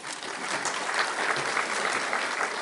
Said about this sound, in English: Let's welcome our speakers.